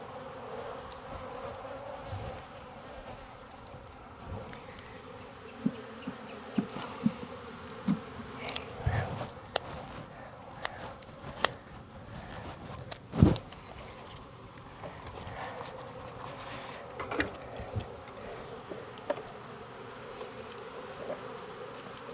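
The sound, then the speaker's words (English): Honeybees buzz around an open hive while its frames are being moved during an inspection, a soft, steady drone broken by scattered faint knocks and a few sharp clicks. “I'm gonna put her face this way and separate them by some frames so I can give any of these bees”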